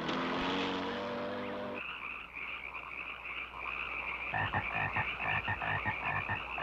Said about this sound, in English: Alright, cutscene. There's more frogs. They're really driving home the point that there's a lot of frogs in this place.